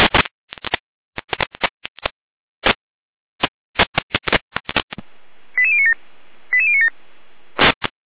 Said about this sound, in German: Letztlich gerne mit Alarmierung.